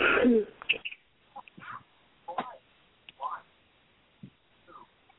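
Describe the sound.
A woman clears her throat in a loud, rough burst at the start, followed by a few quieter, scattered short sounds and pauses.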